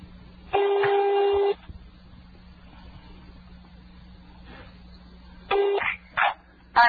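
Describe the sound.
A landline telephone ringing over a phone line to Rafah, with one steady tone of about a second followed by a few shorter bursts near the end, thin and band-limited, with no speech.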